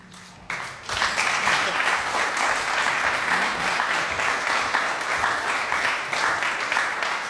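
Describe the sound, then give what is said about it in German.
Applause from a concert audience at a Schubert recital calling for an encore. It starts abruptly after a brief quiet moment and then holds as loud, dense, steady clapping. “So, das klingt nach einer Zugabe, oder?”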